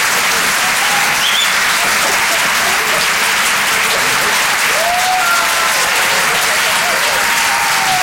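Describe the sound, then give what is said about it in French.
Audience applause at a stand-up comedy show: dense, steady clapping that stays loud and even for about eight seconds. “Faites du bruit, s'il vous plaît, pour Basile, sur les chansons.”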